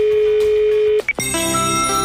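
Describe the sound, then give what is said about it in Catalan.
A telephone ringback tone sounds while calling the Montseny Natural Park office: a steady single tone holds for about a second, breaks off with a click, then bright sustained tones follow, with no talk. “Teníem pendent una trucada a l'oficina del Parc Natural del Montseny. Truquem a l'oficina del Montseny.”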